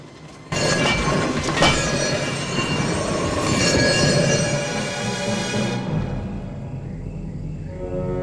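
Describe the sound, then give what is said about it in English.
Rolling metal wheels on railway tracks as a DeLorean, released by a lever, coasts along the rails: a loud, continuous grinding rumble with a high wheel squeal, easing to a lower steady roll near the end. “He hands the photo back to Marty, then reaches up and pulls a lever, releasing the DeLorean down onto the railway tracks.”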